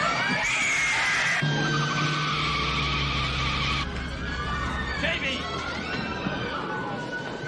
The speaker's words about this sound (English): As the car guns away